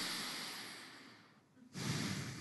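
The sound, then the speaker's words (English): An audience takes a deep breath together: a broad, breathy rush of many people that thins and fades, then swells back in louder and fuller near the end. “This morning when you take a breath with me. Let's do something weird. Go.”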